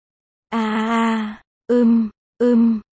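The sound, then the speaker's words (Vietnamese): A patient groans in pain with three voiced, tonal groans: one long drawn-out moan, then two shorter ones in quick succession. They are loud and clear, with no other talk. “Đau quá. Tiếng rên đau làm Thẩm Diệu giật mình sực nhớ ra liền dừng tay ngay lập tức.”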